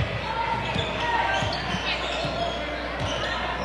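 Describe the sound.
Basketball dribbled on the court during a women's game, several dull low thuds at an uneven rhythm beneath a steady, noisy background.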